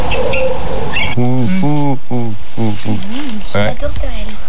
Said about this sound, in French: On est bien chez les colombidés. Le pigeon ramier, ouais. Donc le pigeon ramier.